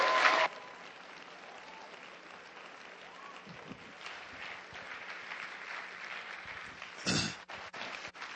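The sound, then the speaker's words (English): Applause from a church audience welcoming a guest speaker, a sustained, fairly soft wash of clapping that opens with a louder burst and swells again near the end. “I want you to put a huge, huge Glad Tidings hand.”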